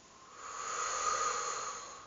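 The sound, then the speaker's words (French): A soft, airy exhale during a relaxation exercise with an arm raised, a breathy hiss that swells gently and fades away, heard alone. “J'inspire, je prends l'air en levant le bras en l'air devant moi. Et je souffle.”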